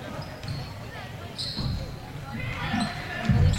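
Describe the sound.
A basketball dribbled on the court during a women's game, a few dull, thudding bounces heard beneath a commentator's ongoing talk.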